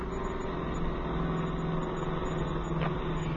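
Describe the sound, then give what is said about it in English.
A hot rod car engine drives fast, holding a steady, continuous low rumble and drone with no distinct revving. “as long as Jimmy was kind enough to loan us his hot rod for the evening, I think we ought to take advantage of it. Well, aren't you driving a little bit fast?”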